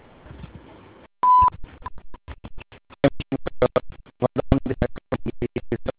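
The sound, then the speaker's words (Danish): A voicemail beep: one short, steady, clear tone, followed by a person beginning to speak in quick, choppy bursts. “Personen, du har ringet til, svarer ikke. Læg en besked efter tonen, eller prøv igen senere.”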